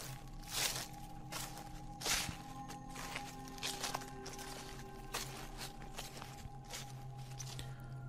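Footsteps crunch and rustle over rotting twigs and dead leaves in soft, uneven steps. The dry crackles repeat throughout and stay faint over a low, steady hum.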